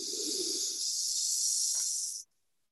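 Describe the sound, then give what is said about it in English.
A breath drawn through one nostril during an alternate-nostril breathing exercise, heard as a single steady, loud, airy hiss lasting about two seconds that cuts off abruptly, with no talking. “Breathe in that side again. And then out. And in.”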